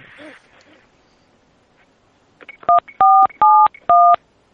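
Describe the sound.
Telephone keypad dialing tones: four loud, clean two-pitch beeps in quick succession, the first shorter than the rest, following a quiet stretch.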